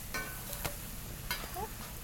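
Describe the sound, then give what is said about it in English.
Food frying in a little coconut oil until crispy, a steady bright sizzle with a few faint clicks and pops scattered through the continuous hiss. “and frying it in a little coconut oil. And we'll just let it get nice and crispy on the outsides”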